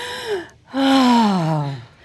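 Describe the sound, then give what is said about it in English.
Deep breaths drawn in during a guided breathing exercise: a short voiced intake, then a longer gasp-like one, each gliding gradually downward in pitch. “let's breathe in that energy of excitement and beauty.”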